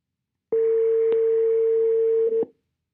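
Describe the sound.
A phone call's ringback tone sounds once as a steady, mid-pitched beep lasting about two seconds. It is heard alone, then stops.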